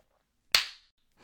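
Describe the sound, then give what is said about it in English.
A single sharp slap of a hand against buttocks, a loud crisp smack that stands alone and fades quickly. “My butt. You like it when I slap it?”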